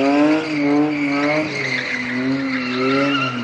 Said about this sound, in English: In the late afternoon, young men gather to see just how much tire rubber they can burn. Fishtailing Toyotas leave a smear of swirling and smoking sticky blackness on the pavement.